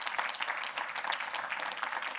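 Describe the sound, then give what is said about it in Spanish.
Applause from a church audience during a sermon, a soft, steady wash of many hands clapping that holds evenly for about two seconds, with no talking over it. “Y Juan nos dice, sí, hermanos, podemos darle un aplauso al Señor”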